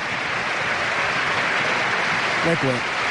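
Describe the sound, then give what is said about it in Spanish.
A football stadium crowd gives an ovation as an Athletic player is substituted off: a broad, sustained roar of applause and crowd noise, with a commentator's voice briefly heard near the end. “Partidazo, mira qué ovación, ¿eh?”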